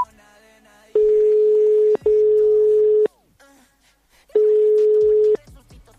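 Telephone tones while a call is being placed: three steady, mid-pitched tones of about one second each. The first two come almost back to back, and the third follows after a longer pause.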